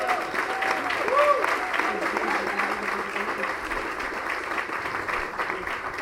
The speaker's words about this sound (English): So we already took our moment to clap,